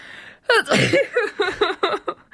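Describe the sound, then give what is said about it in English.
A single sneeze bursts out harshly, followed by several short, rhythmic voiced bursts that sound like laughter. “I was not prepared either for the sneeze or the comment.”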